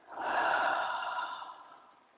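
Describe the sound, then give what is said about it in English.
A slow, deep breath, one long soft airy rush that swells and then fades away over about two seconds, with no talking. “just take a deep breath in and let it go.”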